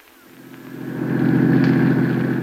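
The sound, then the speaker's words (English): Steady low engine drone of a car driving up a hill on the way back to town. It swells gradually over the first second and then holds level and even, with no voices. “Freddie, you said we were driving straight back to town.”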